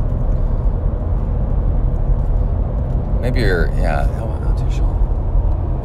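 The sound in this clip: Loud, steady low rumble of road noise inside a moving car, continuous and unchanging, with a voice speaking briefly in the middle.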